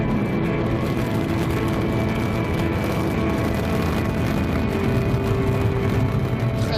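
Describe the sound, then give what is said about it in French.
Roaring rumble of an Ariane rocket at liftoff after ignition of its Vulcain main engine and two solid boosters: a dense, continuous roar with faint steady tones running through it, holding an even loudness throughout, with no voices. “Allumage Vulcain. Allumage 2EAP, décollage.”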